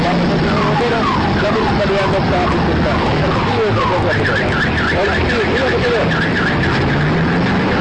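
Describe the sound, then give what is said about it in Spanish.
A car alarm blares from a parked vehicle, its loud warbling tones cycling over and over, while the rumble of another vehicle and indistinct voices sit underneath. “El vehículo continúa sonando. Y también el ruido del otro vehículo que presentamos hace un momento.”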